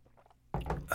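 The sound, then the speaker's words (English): A sip of orange juice: near silence, then a short wet slurping burst that fills the second half of the moment. “I need a sip. Another sip of orange juice.”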